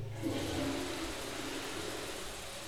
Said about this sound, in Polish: Po drodze zeszedłem do łazienki. Mogę puścić wodę.